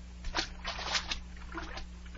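A splash into salt water as someone slips in, a few soft surges of watery sloshing early on that settle into quieter movement, faint overall over a low steady hum.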